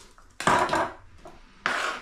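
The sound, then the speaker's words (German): Sharp knife chopping an onion on a small cutting board, two loud bursts of rapid, crisp wooden knocks separated by a short quiet pause, with no voices. “Aber ansonsten immer mit einem scharfen Messer. Dann haut es schon hin. So. Ja, so, die zweite Zwiebel.”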